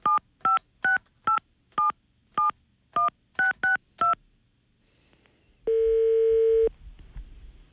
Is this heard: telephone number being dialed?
yes

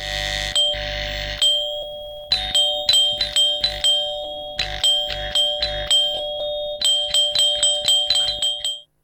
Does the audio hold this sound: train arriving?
no

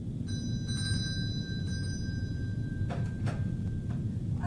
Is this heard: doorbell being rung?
yes

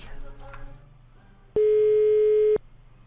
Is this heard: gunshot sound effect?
no

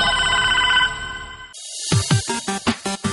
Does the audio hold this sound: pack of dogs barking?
no

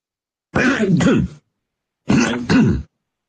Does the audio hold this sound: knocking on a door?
no

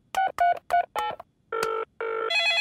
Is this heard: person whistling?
no

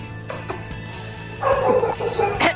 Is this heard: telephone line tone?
no

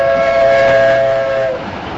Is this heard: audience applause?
no

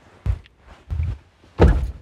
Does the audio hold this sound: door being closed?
yes

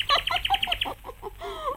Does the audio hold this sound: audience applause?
no

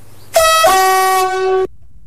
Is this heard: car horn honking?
yes

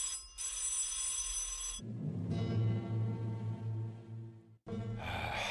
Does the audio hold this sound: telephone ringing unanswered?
yes

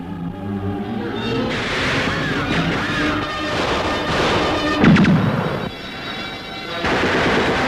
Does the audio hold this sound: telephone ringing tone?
no

